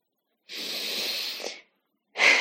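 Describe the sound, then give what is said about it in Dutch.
Deep breathing during a guided relaxation exercise: one long, airy breath lasting about a second, then a pause before the next breath begins. “Dus adem nog maar een keer goed eh, in en uit.”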